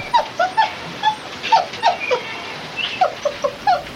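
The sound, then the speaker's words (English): Six-week-old wolf pups whimpering: many short, high, thin whines and yips in quick succession, each a brief bright cry with small pauses between, fairly faint, with no other sounds. “These are the sounds of pups at 6 weeks old, still whimpering, seeking to solicit attention.”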